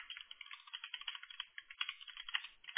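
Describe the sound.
Rapid typing on a computer keyboard as a search is entered. Many quick, soft key clicks run continuously and faintly, with no talk.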